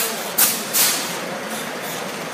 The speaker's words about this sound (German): Ein paar Kilo Aprikosen sind auf dem Förderband. Der Schlüssel umdrehen und los geht's.